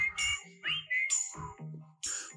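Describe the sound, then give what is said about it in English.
Whistling passed through a voice filter, heard as a run of short, warbling, electronic-sounding phrases with shifting pitch, separated by brief gaps. The melody is uneven, with no clear speech. “He's not only whistling, he added like a filter to his voice.”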